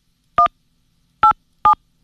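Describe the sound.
Three telephone keypad tones entering a password: short, steady two-pitch beeps, each sounding alone and fairly loud. The first stands apart, and the last two follow close together.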